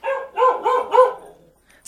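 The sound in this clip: A dog barks in the distance, a run of four short, tonal barks in quick succession that fade into near silence.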